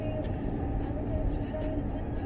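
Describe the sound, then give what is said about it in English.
Low, constant engine and tyre rumble from a car driving on the road, a soft, even drone with a few faint ticks above it. “Am I in the right lane? Yes, I am. You know, driving, you still got to pay attention. So that's making sure I'm in the right lane to get home.”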